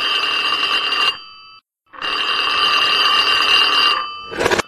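Loud telephone bell ringing before an answering machine message: two long, steady rings separated by a short silence, then a brief click at the end.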